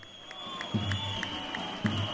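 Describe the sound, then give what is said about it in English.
Crowd cheering and clapping at a political rally in Turkey for Recep Tayyip Erdogan: a fairly quiet, steady din of many voices and hands with recurring short bursts and a thin, high sustained tone above it. “A decade ago, these cheers might have been celebrating Recep Tayyip Erdogan as the force behind democratic reforms and booming economic growth.”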